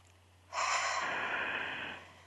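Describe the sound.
A group takes one deep breath in together, a soft, airy inhale that swells and then tapers off over about a second and a half. The sound is quiet, and no one speaks.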